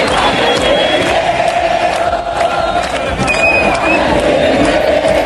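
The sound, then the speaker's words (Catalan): Argentinian football fans celebrate at Plaça de les Glòries in Barcelona ahead of the World Cup final. A dense, loud mass of singing and shouting voices continues without a break. “És el so de la plaça de les Glòries, l'escenari de la gran celebració de l'Argentina amb un España tiene miedo.”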